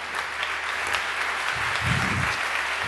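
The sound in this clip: Audience applause at a talk: steady, even clapping from many hands, sustained at moderate loudness for the whole stretch with no voices standing out.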